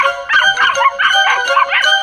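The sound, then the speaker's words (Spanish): A puppy's small, high-pitched yapping barks, several in quick succession, tonal and thin, with no talking over them. “Admiro tu entusiasmo, hijo, pero no vas a asustar a nadie con ese ladrido.”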